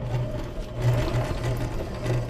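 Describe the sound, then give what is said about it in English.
A sewing machine runs at a sewing camp for young people, giving a steady mechanical whir with a low hum that pulses in short, repeated bursts, with no talk. “decided to check it out and to try and overcome his fear of sewing machines. Have a listen.”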